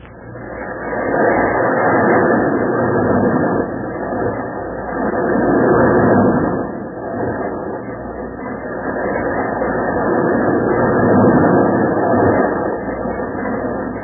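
A roller coaster ride on the Whirlwind, rendered as a radio drama sound effect: a continuous, muffled rattling rumble that swells and eases in slow waves, loud and unbroken for the whole stretch.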